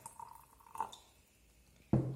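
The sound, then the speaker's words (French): Water poured from a container into soil during a hands-on demonstration of mixing solids with water: faint dribbling sounds, then a sudden, louder rush of pouring near the end. “Je verse mon eau dans la terre.”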